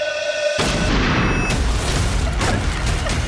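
A gunshot hits as a sudden, loud, booming crack. The sharp onset is followed by a sustained, harsh wash of noise that rings on for the rest of the moment.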